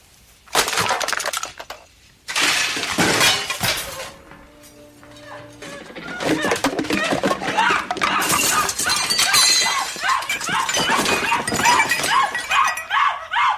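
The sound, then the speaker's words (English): Dishes and objects are hurled off kitchen counters, a pot roast is knocked from the oven, and glass crashes and shatters in a long, chaotic run of breaking and clattering, with a quieter lull midway and a dog barking amid the din. “throwing everything off of the counters of everywhere, including the pot roast off of the oven”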